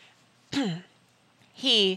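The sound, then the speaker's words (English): A voice imitates throat clearing for a ship captain character in two short, voiced 'ahem'-like bursts separated by a pause. Both bursts have a falling pitch. “Captain Toms cleared his throat.”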